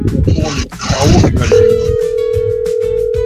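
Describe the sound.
A steady, unbroken telephone line tone on a call with echo on the line. It follows a burst of voice-like sound and holds at an even loudness to the end.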